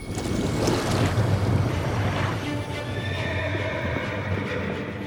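Hooves of a galloping horse, a knight's mount riding toward a castle gate, drumming in a fast, steady rhythm within a dense, continuous wash of noise, with no talk.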